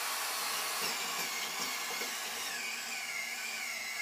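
A butt fusion pipe facer motor shaves full ribbons off HDPE pipe ends, making a loud, steady whirring and grinding drone that holds constant throughout, with no talk.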